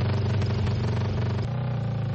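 Ice-racing motorcycles on studded tyres accelerate across a frozen lake, a continuous loud buzzing engine drone whose tone shifts and settles slightly after the midpoint.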